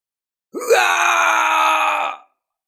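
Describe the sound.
A voice performs a loud cry of pain for the character Tàn Tiên, a single drawn-out groaning wail that rises at the start, then holds a strong, steady, harmonic tone for well over a second before cutting off, heard alone.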